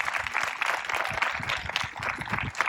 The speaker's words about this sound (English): So let's give Franklin Church a hand and thank them.